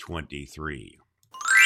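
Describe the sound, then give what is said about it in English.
Bright glockenspiel chimes ring out briefly at the end, after a stretch of talking and a short pause: a single shimmering burst of high metallic tones. “There's our chimes, our Glockenspiel, which comes from our friend Sprinkles”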